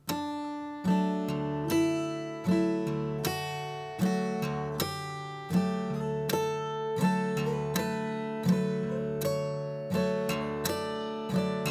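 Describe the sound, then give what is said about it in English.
Clawhammer-style picking practice, a note followed by a brush and thumb stroke, repeated in a steady loping rhythm of bright plucked notes and fuller strummed chords that ring and decay between strokes. “Now what I want you to do is we're gonna do a note and then a brush thumb. So it's gonna sound like this.”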